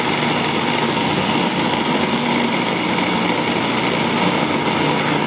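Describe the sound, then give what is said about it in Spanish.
A food processor grinds strawberries with a loud, steady motor whir that holds constant without pause from start to finish. “Entonces vamos a licuar las fresas, a moler las fresas.”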